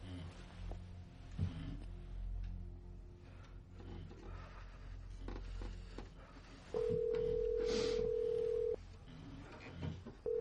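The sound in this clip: A phone call tone sounds as a long, steady, mid-pitched tone of about two seconds, with a second tone starting right at the end, over a low, rumbling background.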